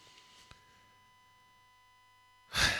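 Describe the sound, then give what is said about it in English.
A deep breath arrives as a single loud, breathy rush of air near the end, after a long stretch of near-silence with a faint low hum. “I take a deep breath because I'm going to do something I rarely do now.”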